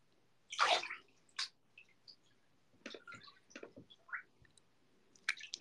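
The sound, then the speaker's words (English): Water sloshing in a bathtub, heard as a series of soft, scattered splashes and drips of varying strength with short quiet gaps between them. The sounds are faint and irregular, and no one talks. “She has AirPods in the bathtub.”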